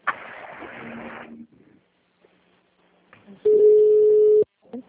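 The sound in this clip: A phone ringing tone sounds on a VoIP conference call: one steady, loud tone of about a second. It follows a stretch of people talking, and a voice briefly resumes after it.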